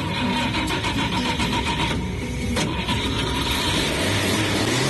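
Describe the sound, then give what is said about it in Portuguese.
A Chevrolet Chevette's engine starts and keeps running with a loud, dense mechanical roar that stays steady throughout. “o que nos resta é ligar a máquina, o nosso Chevetinho, e iniciarmos a abençoada viagem.”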